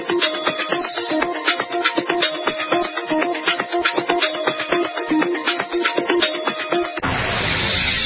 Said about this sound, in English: Hear that? That's the sound of a house being trashed while a gang of thieves ransack the